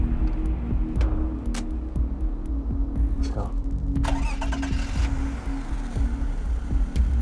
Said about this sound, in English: Scott looks to Jessica as he starts the engine